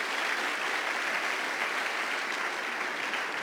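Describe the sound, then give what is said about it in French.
A church audience applauding in acclaim: steady, dense clapping that holds at an even level throughout without breaks. “On acclame Jésus.”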